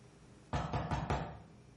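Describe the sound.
A few quick, dull knocks on a wall land in close succession, punchy and clear over a quiet background, then fade.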